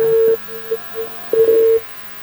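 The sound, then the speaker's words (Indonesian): A telephone tone sounds on an incoming line: two longer, steady mid-pitched beeps, with a few short, fainter blips between them. “Bang Noel udah masuk lagi telepon, langsung saja kita angkat mungkin ya?”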